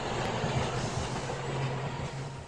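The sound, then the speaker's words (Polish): A train pulling out of a station gives a steady, continuous rumble with a low tonal hum under a broad wash of rolling noise. It stays fairly even throughout, with no voices. “Pociąg zaraz odjedzie. Lepiej już wysiądźcie.”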